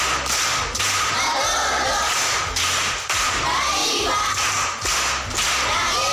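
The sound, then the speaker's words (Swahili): Applause from a class of primary school pupils in a classroom: dense, steady group clapping that runs loudly through the whole clip, with a few sharper accented beats standing out. “Makofi kwa shangazi.”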